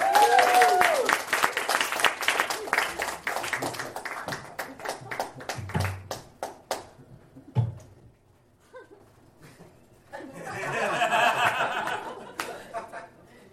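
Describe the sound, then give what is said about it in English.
Studio audience applause greets the new host of a comedy call-in show: heavy clapping for several seconds that thins out and fades, then a later burst of crowd noise with laughter. “Everyone, please put your hands together for Jake James.”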